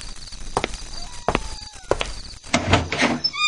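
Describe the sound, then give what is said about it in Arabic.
A door is opened at night for callers, heard as a few scattered dull thuds and scraping creaks that grow louder and busier toward the end, with no talk. “اطلع يا ولد، اطلع يا ابني، افتح الباب.”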